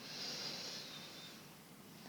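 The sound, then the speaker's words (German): One long, deep inhalation during a guided breathing exercise. A soft, steady airy hiss stays strongest at the start, then gradually tapers off, with no talk. “Und dann atme nochmal einmal tief ein”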